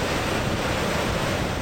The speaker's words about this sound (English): Niagara Falls, the name comes from the Iroquois Indian word meaning thunder of waters. And thunder it does.